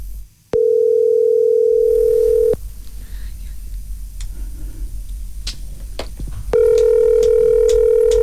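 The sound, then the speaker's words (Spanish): A steady electronic telephone tone holds for about two seconds as a call goes to voicemail. Faint line noise with scattered ticks follows, then a second long, level tone begins. “Después del tono, grabe su mensaje. Vamos a dejar un mensaje.”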